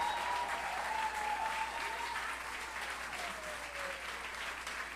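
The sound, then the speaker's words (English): Audience applause for a guitar and cavaquinho player at a live music performance: a dense, steady wash of clapping that holds fairly even for about five seconds and eases slightly toward the end. “Please, a big applause for Munir.”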